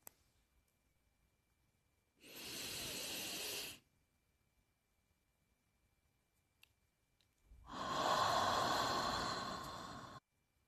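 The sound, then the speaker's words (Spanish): In a slow guided breathing exercise, one steady airy inhalation through the nose is followed by a long pause. Then comes a longer, fuller exhalation through the mouth that gradually fades, with no voices. “Inhala lentamente por nariz. Retené unos segundos y exhala suavemente por la boca.”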